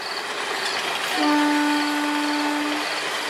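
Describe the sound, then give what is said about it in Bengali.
A train whistle sounding far off: one steady, sustained blast of about one and a half seconds with layered harmonic tones. It rises out of a constant rumbling background and fades back into it. “নীরবতা, শুধু দূরে কোথাও ট্রেনের হুইসেলের শব্দ।”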